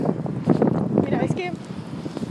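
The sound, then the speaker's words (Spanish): Wind buffets the microphone outdoors on a cold day as people walk and cross a street, a steady low rumbling roar running the whole time beneath voices talking. “es que con el viento no se va a oír, porque hace muchísimo frío hoy.”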